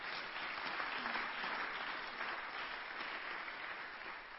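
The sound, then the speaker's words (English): Sustained applause from an audience at a church convention, a dense, steady wash of many hands clapping at an even level throughout, with no voices standing out. “Put your hands together for the Lord.”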